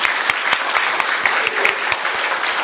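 Audience applause for a visiting group: dense, steady clapping from many hands, loud and sustained throughout with no break.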